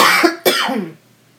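A harsh cough from tequila going down the wrong pipe: a couple of rough, breathy bursts, the second sharp and strong, then a quick fade to silence.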